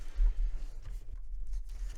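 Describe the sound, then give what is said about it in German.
Handwriting on paper as something is written down, heard as a soft, continuous scratching and rustle of strokes. It is quiet, over a low hum, with no talking. “dann äh, schreiben wir es auf”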